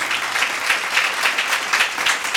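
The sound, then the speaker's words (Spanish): A church audience claps for God, a dense wash of many hands with a loose recurring pulse running through it, steady and moderately loud with no voices on top. “Dele palmas a Dios si usted entiende lo que acabo de decir, hermano, y de escribir.”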